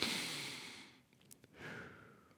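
An audible breath: a long, soft, airy exhale fades out, and after a short pause a second, gentler breath rises. The sound is quiet, hissy and breathy, with no talk.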